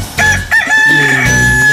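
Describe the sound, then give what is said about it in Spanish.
A rooster crows loudly in one long, strained call with a piercing sustained high tone that holds steady to the end. “Ah, qué chulo canta mi gallo, ¿eh?”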